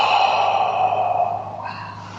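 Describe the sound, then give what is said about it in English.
A deep breath drawn during a guided belly-breathing exercise, a soft airy rush that gradually eases off, heard over a steady, sustained drone. “And the next breath, extend the belly. Yeah. So one more time. Continue. Big breath in.”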